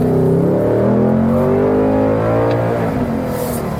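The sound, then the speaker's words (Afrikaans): A Ford Mustang engine revving: a loud, deep, continuous rumble with wavering, shifting harmonics, heard alone without voices. “Ford Mustang, nou dis gaan die laaste keer dat gou hierdie engine laat praat.”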